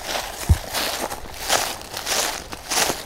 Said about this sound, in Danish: Men lad os øh, gå op igennem bevoksningen